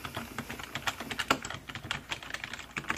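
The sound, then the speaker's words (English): Typing on a computer keyboard in a soft-spoken librarian setting: a quiet, quick and irregular patter of key clicks with no voice. “So let's go ahead and type that in.”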